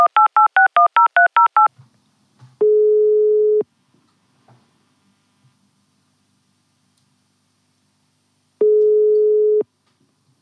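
A telephone number is dialled for a call: a rapid run of keypad tones, then two long steady ringing tones separated by a gap of silence.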